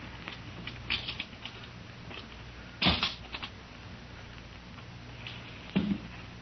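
An old trunk is unlocked with a skeleton key and opened: faint scattered metallic clicks and rattles, a louder clunk followed by short creaks near the middle, and another clunk near the end, over a low steady hum.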